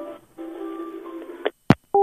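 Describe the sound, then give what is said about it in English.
A phone call is hung up: a buzzing line tone runs on, then a sharp click and a short electronic beep follow in quick succession. “Oh, she hung up.”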